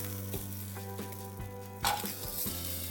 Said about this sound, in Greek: Περνάμε από ένα μαντεμένιο ή ένα αντικολλητικό τηγάνι, αυτά τα υπέροχα καλοκαιρικά λουκάνικα. Φάρμας Αντωνάκη.